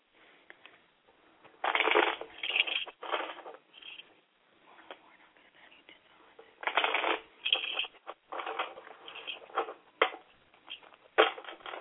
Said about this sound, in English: I'm still basically um, laying out all the cards